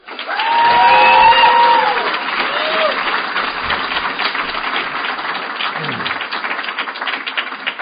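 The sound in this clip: An audience bursts into enthusiastic applause to welcome a speaker at an Alcoholics Anonymous gathering, with loud, dense clapping for about eight seconds and a few whistles and cheers near the start.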